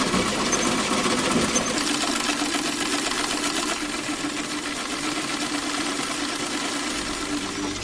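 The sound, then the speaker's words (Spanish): A sewing machine stitches fabric with a steady, rapid mechanical whirring and rattling that runs throughout at a fairly low level, without talk. “cose a máquina la tela que le ha regalado.”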